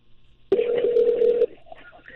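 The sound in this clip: A telephone rings on a radio call-in line with one loud, steady electronic tone lasting about a second. It starts and stops abruptly, and only faint low background sound follows.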